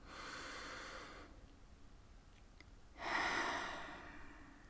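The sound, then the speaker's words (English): A deep breath taken slowly, heard as two long stretches of soft, breathy rushing air separated by a quiet pause of about two seconds. The second stretch swells and then fades, with no talking. “You might just want to take a deep breath. Let's do that now.”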